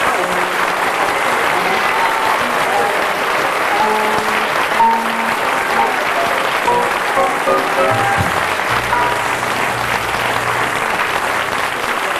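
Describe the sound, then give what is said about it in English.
Audience applause at the close of a Christmas show: a long, steady wash of many hands clapping that holds at an even, loud level throughout. “Right, and one last big hand before we wish you Merry Christmas.”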